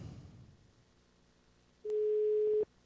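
A telephone ringback tone sounds once while a call is placed, a single flat mid-pitched beep lasting under a second that cuts in and stops abruptly over faint background hiss.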